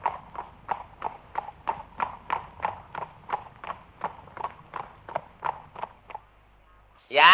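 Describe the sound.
Horse hooves clip-clopping at a steady walking pace, many evenly spaced hollow beats that stop abruptly, followed by a short quiet pause before a voice cuts in at the very end.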